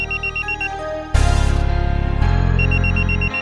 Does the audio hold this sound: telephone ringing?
yes